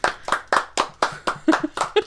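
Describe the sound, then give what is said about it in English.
Nine crisp hand claps in a steady, evenly spaced rhythm, about four per second, as a round of applause during a casual chat; each clap is sharp and fairly bright, with short quiet gaps between. “Round of applause.”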